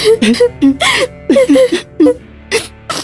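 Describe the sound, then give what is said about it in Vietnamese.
Sobbing from Aladdin and the princess as they embrace and cry, a run of many short, pitched whimpering sobs and catching breaths over a low steady hum. “Cả hai ôm nhau và khóc.”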